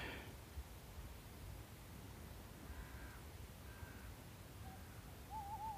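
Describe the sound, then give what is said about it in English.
Faint owl calls at the far end of a valley with farms and a lake: a few soft, short hoots spaced apart over a steady hissing background. “We've got an owl calling at the far end as well.”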